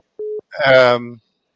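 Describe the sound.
A single short, steady phone-line beep marks a caller disconnecting from a call-in line. A brief voice follows right after the tone.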